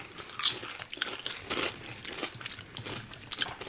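Crunching of a smoky-flavoured, crisp-like snack during a tasting: a sharp bite, then many brittle, crackling chews in an irregular rhythm, fairly quiet, with no talking.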